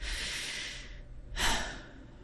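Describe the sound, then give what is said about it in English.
A deep, lung-filling breath: a long, airy rush of air, a brief pause, then a shorter, louder burst of breath, heard alone with no talking. “We can start right now by taking a deep, lung-filling breath. Just one. Go ahead, do it now.”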